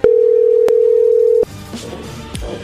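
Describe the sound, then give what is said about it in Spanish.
A steady single-pitch telephone tone sounds after a dropped call. It holds loud and even for about a second and a half, then cuts off abruptly into faint, low background noise. “Creo que se cortó la llamada.”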